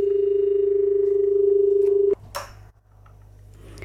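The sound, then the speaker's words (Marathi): A telephone dial tone sounds as a phone call is taken: a steady, loud, mid-pitched hum lasts about two seconds, then cuts off abruptly into faint clicks and line noise. “आपण एक phone घेऊया.”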